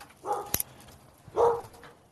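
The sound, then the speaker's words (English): A dog barks out back behind the house: two faint, short barks about a second apart, with a sharp click between them. “the dog's going nuts out back.”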